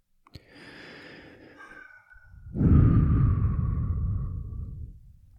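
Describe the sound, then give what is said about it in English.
A deep breath taken while holding hands before a séance: a faint, airy inhale lasting about two seconds, a brief pause, then a louder, fuller breathy exhale that slowly fades, with a small click at the start. “take a deep and take a deep breath with me so we can synchronize our minds.”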